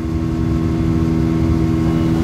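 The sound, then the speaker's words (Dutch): Steady engine drone of a motorboat serving as a mobile clinic, travelling on the Sobat river: a continuous low hum with even loudness throughout and no voices. “We varen over de Sobat rivier”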